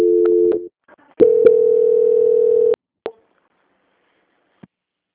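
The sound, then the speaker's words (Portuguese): Electronic telephone transfer tones on a bank call: a short, steady two-pitch tone, a brief gap, then a longer steady hum lasting about a second and a half, followed by a few sharp clicks and near silence. “Só um momento que eu vou transferir a ligação para a auditoria, tá bom?”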